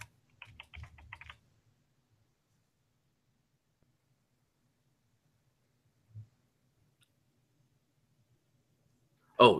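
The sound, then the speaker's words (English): A quick burst of keystrokes on a computer keyboard as a web search is typed, then near-silence broken only by a couple of isolated later sounds. “I just typed in who bought it, and it goes Time Warner.”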